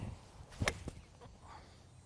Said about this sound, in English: I'm gonna try to aim just a little bit right of the pin and see if I can't hit a good shot.